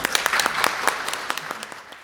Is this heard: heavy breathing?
no